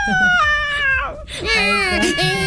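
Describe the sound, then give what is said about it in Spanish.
A baby crying in two high, wavering wails split by a short catch of breath. The second wail is strained and rises in intensity before trailing off. “¿Por qué llora? Porque le metieron un gol.”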